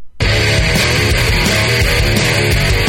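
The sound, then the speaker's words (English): Instrumental theme music of a weekly radio program, produced in-house, bursts in abruptly after a brief silence, then plays loud, dense and steady throughout. “The theme music that you hear on the program each week, you know, the Graylian theme, you know what I'm talking about. It sounds like this.”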